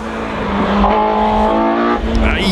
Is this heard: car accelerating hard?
yes